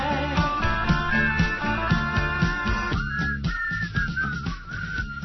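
A person whistles a tune, a clear, high, wavering melody over steady rhythmic backing music.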